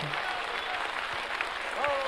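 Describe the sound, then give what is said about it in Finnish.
Applause from a church audience clapping during a bilingual English and Finnish service: a steady, soft wash of many hands with voices over it, and a voice briefly rising near the end. “Let's give him a hand. Ja nyt Jeesukselle taputetaan.”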